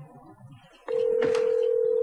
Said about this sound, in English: It's not nice to make prank phone calls. Don't be such a chicken. Here, it's ringing.